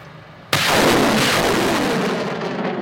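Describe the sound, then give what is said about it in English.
Ukrainian Marines fire a military rocket salvo: a sudden loud blast opens into a sustained, roaring rush of noise that slowly fades over a few seconds. “Late afternoon, and Ukrainian Marines prepare a fresh salvo of rockets.”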